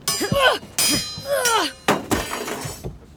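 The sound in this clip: Metal swords clash in a sword fight: a few sharp, ringing clangs with bright shimmering overtones, separated by short pauses.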